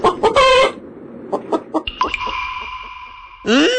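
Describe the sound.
Chicken clucking: a few short, sharp clucks, then a longer held call and a loud closing squawk, all standing out clearly with no talk.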